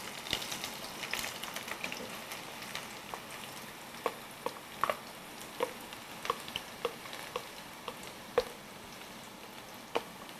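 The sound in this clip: Finely chopped onions fry in hot oil while being stirred, giving a faint, steady sizzling hiss dotted with many small pops and crackles.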